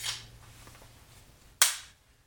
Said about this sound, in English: Staple gun. I'm gonna unload.